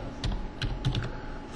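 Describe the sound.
Typing a search keyword on a computer keyboard: a few quick, light keystrokes in a loose burst over a low, steady hum.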